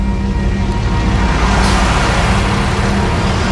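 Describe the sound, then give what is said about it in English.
An MRAP armored military vehicle, surplus equipment now used by local law enforcement, produces a loud, steady engine drone. The broad rumble holds constant throughout, with no distinct events. “This is an MRAP vehicle we acquired through the 1033 program.”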